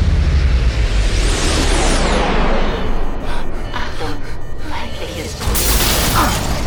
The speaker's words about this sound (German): Der zweite Torpedo zerstörte die Triebwerke. Eine gewaltige Erschütterung schleuderte Barney und die Crew zu Boden.